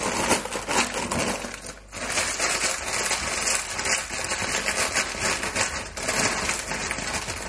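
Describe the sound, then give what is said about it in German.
Rustling and brief breaking of frozen vegetables: a dense, continuous brittle crackle with scattered sharper clicks and snaps, fairly loud throughout and without any talk. “vor allem weil bei tiefgekühltem Gemüse, Entschuldigung, das Rascheln, und kurz das Zerbrechen,”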